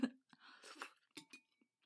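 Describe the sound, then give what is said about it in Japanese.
Faint chewing of noodles: soft, irregular wet smacks and clicks of the mouth in a few quick bursts, very quiet throughout. “このすする音は取れてると思うけど、こう口の中のなんていう咀嚼音とか取れてるかな。”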